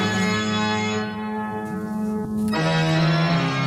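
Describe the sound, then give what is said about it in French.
Loud pipe organ playing a Bach toccata on the great organ of Notre-Dame cathedral, with full sustained chords that shift to a new, lower-based chord partway through, alone with no voices. “ce que vous entendez, c'est la toccata de Bach. Hein. C'est le dernier morceau qui a été joué sur le grand orgue avant l'incendie.”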